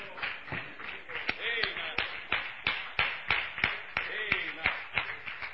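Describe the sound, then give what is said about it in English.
A church audience claps hands in an even, rhythmic beat, with sharp claps coming about three per second. The clapping runs steadily throughout at moderate volume, with voices heard along with it. “Give the Lord a round of applause.”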